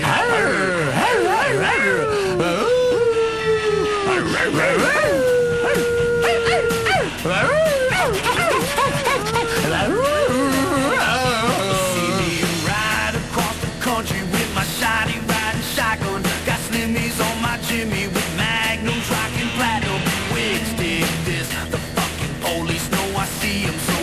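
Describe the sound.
A person's voice imitates a dog, giving wavering, howl-like cries and yelps that slide up and down in pitch, loud and continuous, over a busy, dense background.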